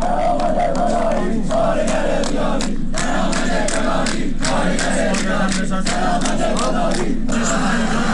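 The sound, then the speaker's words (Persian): A loud protest crowd at a strike and rally of workers at the Bahman automotive group in Tehran, with dense massed shouting and chanting that carries on steadily throughout, and sharper collective bursts now and then. “در تهران هم گروه خودروسازی بهمن مشهور رو داریم، امروز اونجا هم تجمع و اعتصاب بوده. باز هم صدایی داریم، اگر قابل پخش هست الان میتونیم با هم بشنویم.”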